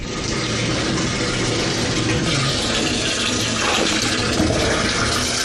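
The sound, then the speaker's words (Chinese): Water runs from a turned-on tap in a new village home as a steady, dense rushing hiss. It stays even and continuous throughout, with no pauses and no voices. “如今在新家，拧开水龙头就有清泉。”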